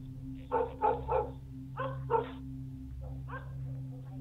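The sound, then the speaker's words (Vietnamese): A black dog barks in a few fairly faint bursts of short, sharp yaps over a steady low hum, with no voices. “Con chó mực ở bên ngoài, nó tự nhiên chĩa ra ngoài cổng, rồi hướng ra phía sông mà sủa nhấm nha nhấm nhặng.”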